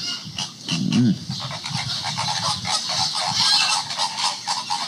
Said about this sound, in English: here is flamingo sounds